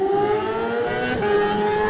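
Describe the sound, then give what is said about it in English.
Engine note of a Yamaha racing motorcycle pulling away from the start at a race, a loud, steady, buzzing drone with strong harmonic whine that holds nearly level throughout. “26 is next to go, that's Eddie Ferrer, Yamaha.”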